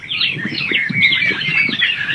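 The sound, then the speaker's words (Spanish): A small bird chirps in a lively, continuous stream of bright, high-pitched tweets and trills that run through the whole moment without pause. “El pajarito es Shakura, ¿eh?”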